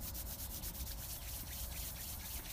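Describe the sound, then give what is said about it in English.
Palms rub together briskly in quick back-and-forth strokes during a guided relaxation exercise. The rubbing is soft, dry and faint, repeating in an even rhythm. “Begin rubbing your hands together.”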